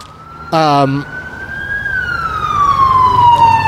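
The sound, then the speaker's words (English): Police car siren passing outside during a traffic stop: a steady wailing tone that climbs gently, then slides slowly downward as it continues, loud over low road rumble. “do you like podcasts and ambulances? Yeah, it'll probably pick up a little bit. They're pulling somebody over right now. Oh, it's cops.”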